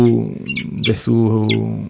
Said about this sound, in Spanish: Estamos escuchando de fondo el sonido del halcón peregrino.